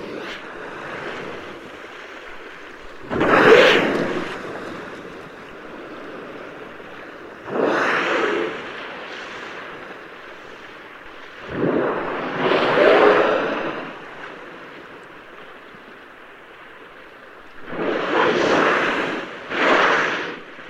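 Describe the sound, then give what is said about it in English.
A whale blowing through its blowhole: several loud, breathy whooshing bursts of air, some doubled, spaced out over a soft ocean wash and wind noise, with no voices. “And it's the sound of a whale blowing.”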